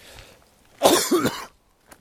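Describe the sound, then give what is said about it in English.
A single loud, harsh cough in two quick rough pulses. It stands alone against near silence, with a faint click after it. “to get healthy and stop coughing?”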